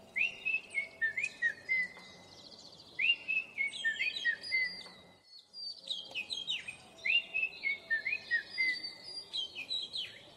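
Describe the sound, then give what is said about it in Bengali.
An oriental magpie-robin sings sweet, high whistled phrases in quick repeated runs, in two bouts split by a brief pause, fairly faint and alone. “আহা, এই পাখির ডাক কেমন মিষ্টি, মানুষ কি কখনো এমন ডাক ডাকতে পারে। সুজন সেদিন থেকেই মুখ দিয়ে দোয়েলের ডাক ডাকার চেষ্টা করতে লাগল।”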